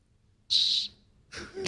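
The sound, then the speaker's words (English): A 3D-printed 120-decibel whistle gives one short, piercing, steady high-pitched blast, followed by breathy rustling. “he is holding up a 3D-printed 120-decibel whistle thing”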